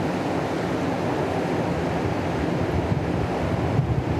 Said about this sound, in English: And the wind is also participating in the creation of this beautiful texture. And we are here with the river flowing